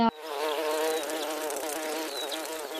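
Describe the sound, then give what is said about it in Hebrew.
A swarm of locusts buzzes in a dense, steady drone with a rough, humming tone that holds at an even, fairly loud level throughout. “חגבים גדולים כיסו את כל השמיים עד שנהיה חושך.”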